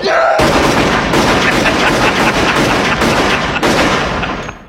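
Gunfire from a film scene: loud, dense shots fire in rapid succession as a continuous barrage lasting several seconds, then trailing off at the end.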